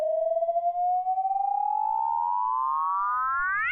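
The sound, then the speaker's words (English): A sonified gravitational-wave signal of a small object of 1 to 100 solar masses spiraling into a much more massive black hole: a steady harmonic tone glides slowly upward in pitch, climbing faster near the end. “That sound was actually modeled for an extreme mass ratio in spiral, meaning that one small object of 1 to 100 solar masses is spiraling into a much more massive black hole.”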